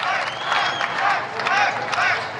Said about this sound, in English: and now he's, you know, they're clapping. I'm not sure what's going on in the crowd because you can't really see it.